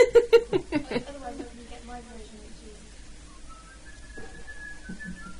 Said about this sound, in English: I think I whistled this far better than you.